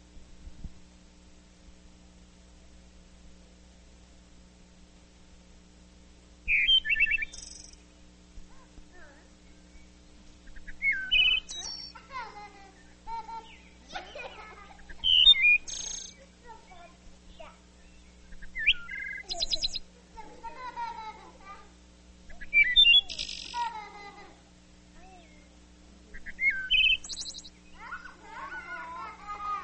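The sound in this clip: Bird song from a male that sings two notes at once, harmonizing with himself. Many short, bright chirping phrases come in bursts between pauses over a steady low hum.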